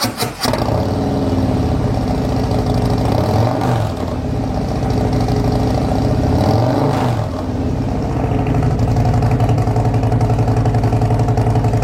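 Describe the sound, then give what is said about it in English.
A motorcycle fitted with exhaust tabs fires up and runs loud and throaty, its exhaust swelling through two revs that rise and fall before settling back to a rough, steady idle. “we're about to fire this up and she's going to hear the tabs on her bike for the first time.”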